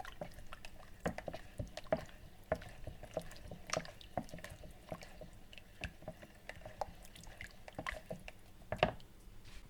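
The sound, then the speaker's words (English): Sugar being stirred into a homemade lemon drink: many light, irregular clinks and soft liquid swishes in a steady stream, faint throughout. “So we've added in the sugar and we're just giving it a stir.”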